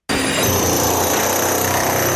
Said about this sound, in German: hantiert mit einer Art Presslufthammer, wo ich auf die Baustelle komme. Jetzt sind wir gerade noch gewisse Sachen rausspitzen von der alten Wand